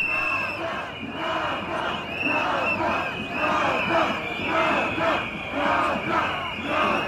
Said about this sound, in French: Cette manifestation que l'on entend se déployer dans la vieille ville de Sarajevo demande justice pour les victimes du glissement de terrain de Jablanica.